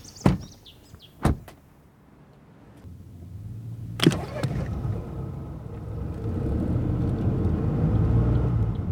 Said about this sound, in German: Wir fahren über Waldwege zurück nach Baruth.